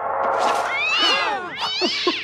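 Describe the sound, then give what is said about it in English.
A cat meowing several times, each a loud, bending cry that rises and falls in pitch, with short gaps between them over a faint steady hum. “Only a kitty cat.”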